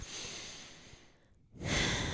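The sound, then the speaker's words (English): People take a deep breath together: a long, airy rush of breath, a short near-silent pause, then another louder, breathy release, soft overall and without talk. “just to take a deep breath. Should we do that right now?”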